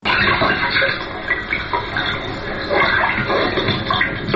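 Rushing water noise during a shadow theatre performance, a continuous, dense hiss that swells and eases slightly throughout without pause.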